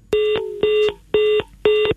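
Telephone line tones sound on a radio call-in line as a caller is connected. Four evenly spaced, buzzy tone bursts of steady, equal pitch repeat about every half second.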